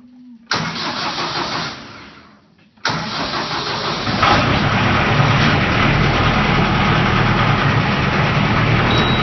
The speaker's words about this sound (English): This is the sound of my grandpa starting his... tractor.